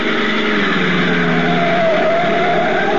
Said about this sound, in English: a black sedan twists up the curving mountain road leading to the inland plantation country of Puerto Rico